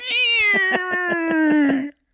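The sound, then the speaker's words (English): A cat sitting on a bed gives one long, loud meow with a wavering, pulsing quality. Its pitch sinks slowly toward the end before it cuts off. “that cat was just sitting on the bed watching going.”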